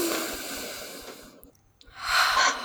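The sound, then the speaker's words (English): A deep breath, with a long, airy inhale, a short pause, then a louder, breathy exhale, alone and without voices. “So let's deep breath.”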